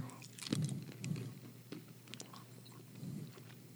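Soft, faint chewing of two cherry Jelly Belly jelly beans eaten together, with a few muffled bites and squelchy mastication.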